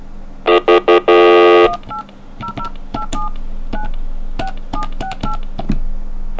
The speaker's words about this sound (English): Okay, I thought I misdialed because I have to, like, talk while I dial. I have to say the number or I get it wrong.